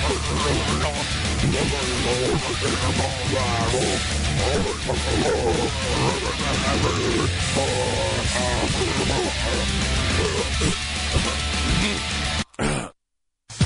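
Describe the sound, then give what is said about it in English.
A dog barks as a sound effect in a roofing company advertisement, set in a loud, dense din of growling and roaring animal noise that runs continuously before cutting off abruptly near the end. “Roof, roof? You know what that sound is. That's Rufus the Roofing Dog from Lifetime Roofing and Renovation.”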